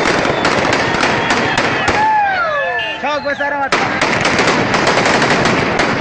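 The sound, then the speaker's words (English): Taliban fighters fire weapons in the streets of Kunduz. Loud, rapid bursts of gunfire crackle almost continuously, with men's yelling voices rising through a brief lull in the middle. “here's the sound of Taliban fighters on Monday firing weapons and yelling in the streets of Kunduz”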